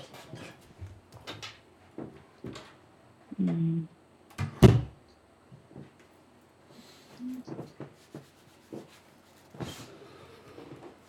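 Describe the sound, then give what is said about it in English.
An office door is closed with a dull, heavy thud near the middle, set among softer knocks and faint shuffling. “I've just got to go close my office door. Is that okay? Uh-huh. Just one moment. Let me just get the door here.”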